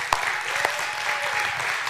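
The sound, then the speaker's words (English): A crowd applauds to congratulate a couple on their new home, a moderate, even patter of clapping punctuated by a couple of sharper, louder claps near the start. “So congrats on your new home and your new adventure. So let's give them a hand.”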